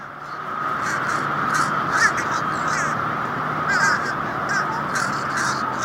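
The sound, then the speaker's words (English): Fish crow calling in a rapid series of short, nasal, clipped caws, the species that looks almost identical to the American crow. The calls are many and fairly even in loudness, standing out clearly over a steady background. “That's the fish crow.”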